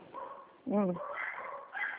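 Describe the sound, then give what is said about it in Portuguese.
Dogs barking during a phone call: one sharp, harmonic bark stands out over a person talking throughout, all with a thin telephone tone. “Ai, não entendi nada, os cachorros estão latindo.”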